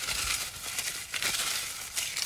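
Items being rustled around, a continuous crinkly, papery rustling with uneven swells, fairly soft and heard alone.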